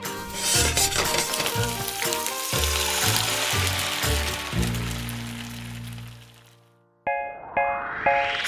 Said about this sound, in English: Woks are great for making a stir fry. That's when you throw a bunch of ingredients in, like veggies and noodles, and fry them all up into a delicious meal.